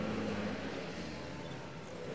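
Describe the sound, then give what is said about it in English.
Snowmobiles ride out together over snowy fields, a steady, even engine drone that holds without pause or change in loudness. “Sawyer and Susie climbed onto a snowmobile with Raffo, while Alf and Grandpa each took their own. Together, they rode out over the snowy fields”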